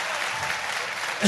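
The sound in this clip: Applause welcoming a team onto the stage at a live show, a brief burst of dense, even clapping that swells a little louder at the very end.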